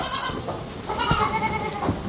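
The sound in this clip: Goats and their kids bleating in a herd, a few wavering bleats of varying pitch over a steady background of rustling and movement.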